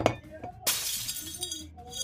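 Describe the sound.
A drinking glass shatters in one sudden loud crash partway through, followed by bright tinkling of falling shards.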